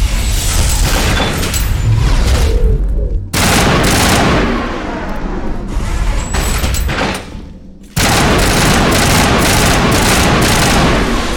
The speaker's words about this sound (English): I'm actually impressed that this gun feels different. I immediately notice that I'm firing a different gun.